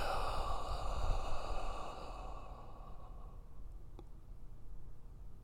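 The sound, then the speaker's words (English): A person breathes slowly in and out, a quiet, airy breath heard alone while a soft sustained tone fades away beneath it. “Inhale. Exhale.”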